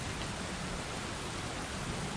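Stormy rain produced as a stage sound effect: a dense, steady, loud hiss of pelting rain that runs unbroken throughout, with no voices over it.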